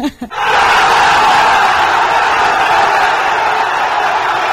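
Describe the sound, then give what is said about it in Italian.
A loud roar erupts from a studio audience, a dense, steady wall of crowd noise that starts abruptly after a brief sound and holds at full strength to the end. “Boato clamoroso del nostro pubblico.”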